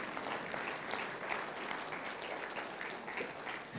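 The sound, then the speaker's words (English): Applause from a church audience during a worship sermon: steady, continuous clapping of even loudness throughout, with no voices over it. “thank you for that required clap”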